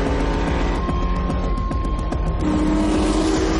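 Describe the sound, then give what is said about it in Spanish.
Race cars, one a Ferrari, accelerating hard from a standing start side by side: a loud, continuous engine roar that shifts higher partway through. “Uno de los matones del argentino les da la salida. Arrancan a toda velocidad.”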